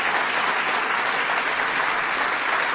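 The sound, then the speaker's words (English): An audience applauds at a political victory speech with dense, even clapping that continues without pause for the whole stretch, steady and loud, with no voices standing out. “applause, applause, victory.”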